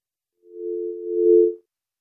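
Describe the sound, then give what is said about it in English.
A steady telephone line tone sounds after a caller has hung up: one continuous low electronic hum lasting just over a second, swelling slightly louder near its end, with no voices. “Sound like he hung up. All right, looks like Ralph might have dropped.”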